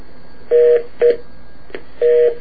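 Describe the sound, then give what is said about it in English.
Telephone keypad touch-tones, three clear, steady beeps of even pitch in an uneven rhythm, with a fainter short blip between the second and third. “It's not easy reading and dialing, folks.”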